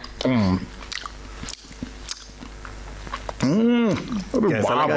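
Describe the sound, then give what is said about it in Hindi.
Chewing on a sandwich: soft, irregular crunching and mouth sounds under and between people talking. “तुम बैठो बैठो और लो ये सैंडविच खाओ, प्रथम ने बनाए हैं।”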